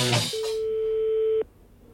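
A telephone call tone sounds as the call goes out: a single steady, mid-pitched tone holds for about a second, then cuts off abruptly into near silence after a brief burst of sound at the start.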